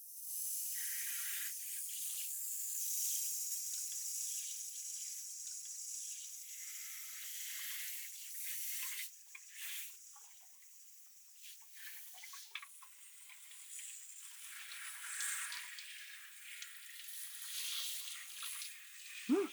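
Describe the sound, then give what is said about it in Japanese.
Lukewarm water from a shower sprays over someone's hair in a steady, soft hiss, with a few brief louder splashes toward the end. “もし平気なら、まずはシャワーで頭を流していきます。ぬるめのお湯なので、多分平気なはずかと。では、流しますね。”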